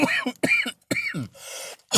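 Harsh, hoarse coughing from smoking a joint comes in a rapid series of raspy bursts with throat-clearing, ending in a longer breathy hack and a final cough.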